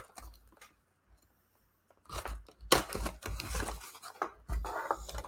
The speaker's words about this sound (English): Maybe if my knife will cut the tape.